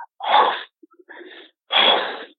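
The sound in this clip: A voice imitates a creature's harsh, breathy breathing as it stands outside. Three rough, hissing exhalations come in turn, the middle one quieter and more broken, with brief silences between.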